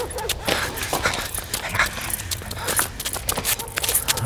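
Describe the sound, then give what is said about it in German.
Rapid running footsteps of someone fleeing in an audio drama, heard as many quick, sharp thuds and scuffs in an uneven rhythm that continues throughout. “Hört ihr das? Da läuft jemand weg.”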